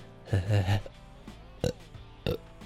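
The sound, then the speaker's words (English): A loud, low, croaky burp lasting about half a second, followed by two brief, sharp bursts of sound. “Don't love the burps.”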